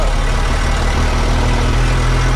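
A car engine runs while driving through a neighbourhood with small farmhouses. The low rumble is loud and steady, holding an even level throughout with no voices.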